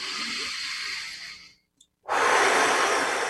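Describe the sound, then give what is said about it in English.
Deep breaths taken during a guided relaxation exercise: a long, airy rush of breath that fades, a short pause, then another strong breath. No talking. “So breathe easily. 3 quick deep breaths. 1 more, relax.”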